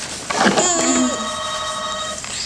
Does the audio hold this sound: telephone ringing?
yes

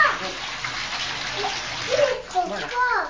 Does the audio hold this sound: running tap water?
yes

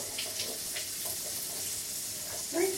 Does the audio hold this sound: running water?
yes

